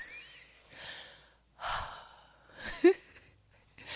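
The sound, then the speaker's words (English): Deep breaths: a few slow, airy, fairly soft inhales and exhales, one ending in a short throaty catch. “Let's just take a deep breath.”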